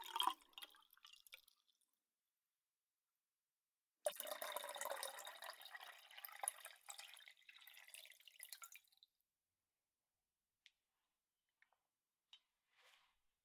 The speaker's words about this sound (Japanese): お湯を注ぐ音。これは気持ちいい音だね。耳に優しくて。